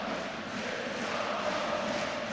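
Steady crowd noise from 1. FC Köln football fans in the stadium's south stand, cheering and chanting. The broad, even roar holds at a moderate level with no clear peaks.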